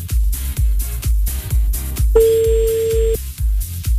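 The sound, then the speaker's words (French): A telephone tone sounds as a call is dialled: one steady beep of about a second, heard over a loud, regular thumping beat. “Donc on va appeler à Aulnay. Allons-y.”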